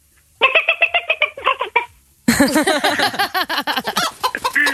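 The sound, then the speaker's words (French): A person imitates a hen with a run of rapid, nasal clucks. After a brief pause comes a louder, denser burst of frantic squawking clucks that lasts to the end. “Fais-nous la poule.”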